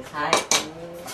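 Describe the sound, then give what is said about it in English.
Dishes and utensils clinking in the kitchen of a Buddhist temple food cooking class, with two sharp clatters over a low, steady background. “So is it possible to find that kind of spiritual satisfaction cooking, say, your average weekday dinner? To find out, I visited a Buddhist cooking class.”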